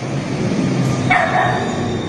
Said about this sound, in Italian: Il cane c'è.